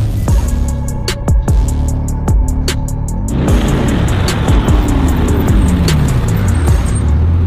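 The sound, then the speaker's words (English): A brand-new Bugatti drives with a loud, continuous engine roar. Its pitch climbs and drops back several times, and a broad rushing noise thickens through the second half. No voices are heard. “just got himself a brand new Bugatti. We're gonna go check it out. He's gonna take me for a spin”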